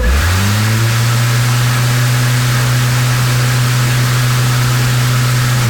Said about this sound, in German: einen Akkumäher. Und damit das vom Geräusch her auch passt, starte ich den jetzt mal für dich und für alle Elektroliebhaber klingt das jetzt so.